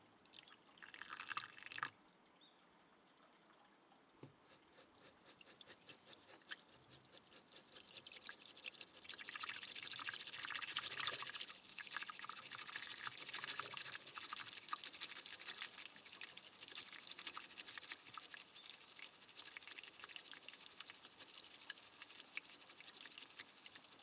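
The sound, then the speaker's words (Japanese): Hot water is poured for tea, a quiet, steady trickling and splashing that swells partway through and keeps on without pause. “ではお湯を注いで、”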